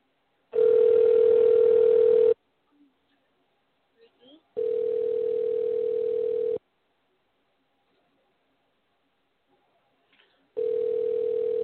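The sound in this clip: Ringback tone on an outgoing telephone call: three steady, even buzzing tones, each about two seconds long, separated by longer silent gaps with a few faint clicks.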